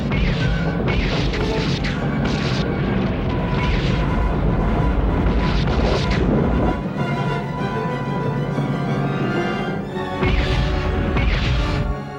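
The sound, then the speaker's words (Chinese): Heavy booming bombardment from small warships' main guns firing through gaps in a defensive line, a dense, continuous roar of blasts that stays loud throughout and swells again near the end. “准备加强后装的战舰，完成防御系统，利用小型舰主炮从空隙间展开炮击。”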